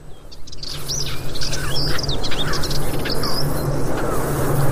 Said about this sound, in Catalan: I comencem a sentir, per exemple, la puput, se sentia també. I alguns tallarols.